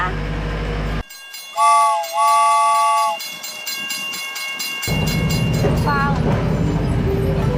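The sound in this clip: A small sightseeing train gives two whistle blasts over a low rumble, then a steady rolling clatter of wheels on the track takes over, with a few brief squealing tones near the end.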